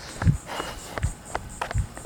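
Footsteps of someone running in the Whisper Cove Court cul-de-sac: heavy, low footfalls at a steady, even pace, with lighter scuffs between them.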